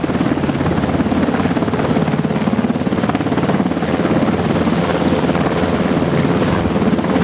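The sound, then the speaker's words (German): Thudding rotor and turbine roar of an Italian Seahawk helicopter approaching a frigate at sea, a loud, steady, pulsing chop that holds throughout with no voices. “Italienisches Luftfahrzeug war das. Hört man sofort, oder? Okay, Spaß beiseite. Das ist eine italienische Seahawk.”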